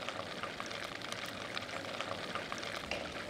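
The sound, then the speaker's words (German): Butter comes to a boil in a pan for a hollandaise, giving a faint, steady sizzle dotted with tiny popping bubbles and no voices. “Wenn man hier noch mal sieht, es fängt jetzt richtig an zu kochen.”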